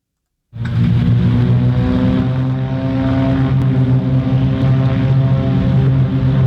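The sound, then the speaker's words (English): Propeller engine roar from three Beechcraft Bonanza planes taking off from a regional airport. After a brief silence it rises to a loud, steady droning hum with strong low harmonics, holding level to the end. “That's the sound of three Beechcraft Bonanzas taking off from the La Crosse Regional Airport over the weekend on their way to Oshkosh.”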